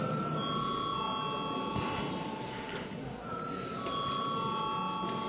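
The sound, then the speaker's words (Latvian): A parliament session bell rings electrically to call members to a vote, a steady, high, buzzing ring in two long stretches separated by a short gap, over a low background hum. “Paldies, lūdzu zvanu.”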